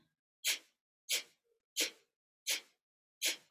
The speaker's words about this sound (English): It's as if you were laughing out loud like this. Ha, ha, ha, ha, except that your mouth is shut and so the exhale is through the nose like this.